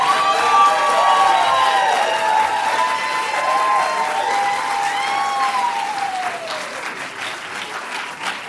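Audience applause and cheering at a live storytelling show, dense sustained clapping with drawn-out whoops over it, easing off slightly toward the end.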